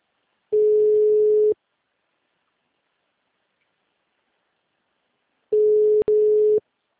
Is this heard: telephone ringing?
yes

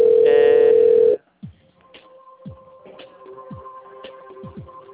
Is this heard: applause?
no

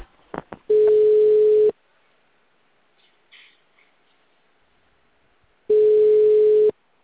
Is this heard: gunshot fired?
no

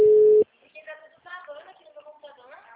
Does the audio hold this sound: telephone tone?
yes

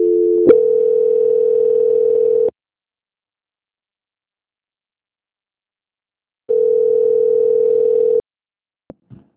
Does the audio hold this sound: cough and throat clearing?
no

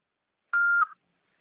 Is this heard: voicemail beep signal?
yes

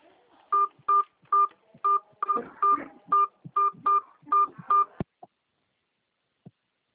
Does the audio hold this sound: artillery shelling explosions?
no

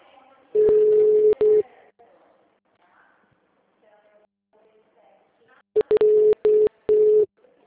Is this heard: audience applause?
no

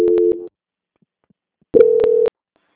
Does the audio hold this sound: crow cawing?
no

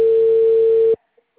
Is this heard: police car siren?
no

